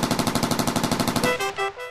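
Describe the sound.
Automatic gunfire from a World War II battle against Japanese troops: a rapid, steady stream of many loud shots for over a second, then a few slower, separate bursts.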